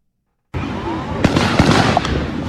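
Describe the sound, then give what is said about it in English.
Gunshots in a park: after a moment of silence, a few sharp, loud cracking bangs ring out over a dense, noisy background. “that's that's a number of gunshots in the park.”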